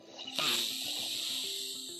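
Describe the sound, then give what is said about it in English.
A deep breath drawn in through the nose during a seated guided breathing exercise: a soft, steady rush of air that begins about a quarter of the way in and holds to the end, over a low sustained tonal hum. “Let's breathe in through the nose, close the eyes.”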